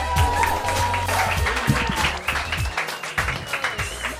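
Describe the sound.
An audience applauds and welcomes a host onto the stage. Busy clapping and crowd noise mix with voices throughout.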